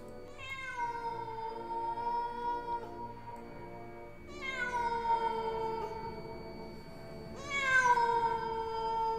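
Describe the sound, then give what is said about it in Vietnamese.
Stray cats yowl mournfully in a cemetery at night: three long, drawn-out cries, each starting high and sliding down in pitch, spaced a few seconds apart, with the last one the loudest. “Những con mèo hoang, nó bắt đầu đi lang thang trong nghĩa địa, kêu lên những tiếng thảm não, nghe đến rợn cả người.”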